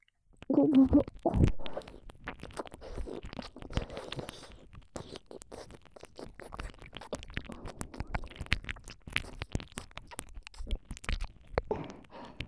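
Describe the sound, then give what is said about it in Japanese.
ASMR tongue-tip licking inside the ear: a long, irregular stream of wet clicks, smacks and crackles. A louder burst comes near the start, then the sounds turn quieter and busy. No talking. “こっちのお耳の穴にも舌先差し入れてあげますね。”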